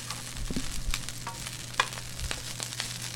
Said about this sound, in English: Okay, can you toss in those peppers right now?